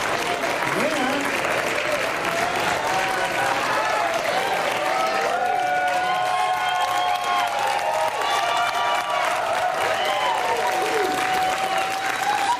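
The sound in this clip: An audience applauds and cheers for the MC at the Bluegrass Music Hall of Fame and Museum: a loud, steady wash of clapping for about thirteen seconds, with whoops and shouting voices riding on top.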